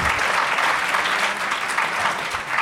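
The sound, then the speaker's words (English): Audience applause, a loud, continuous roar of many hands clapping that stays thick and even from start to finish. “Sure, give yourselves a round of applause for that amazing,”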